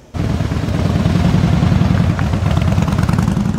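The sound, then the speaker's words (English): Motorcycle engines rumble as riders set off on the inaugural BC Highway of Heroes charity ride for Wounded Warriors Canada, leaving Fraser Highway in Langley. After a brief quiet the loud, low engine roar cuts in abruptly and holds steady. “30 cyclists set off, motorcyclists and cyclists there, set off from the 21,000 block of Fraser Highway”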